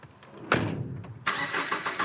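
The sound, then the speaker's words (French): Electrician's van engine on roads around Île-de-France, quiet at first, then a sudden surge of engine noise and a second, louder rise that carries on steadily. “Chaque jour, Ilyes Lamoury sillonne les routes d'Île-de-France avec sa camionnette.”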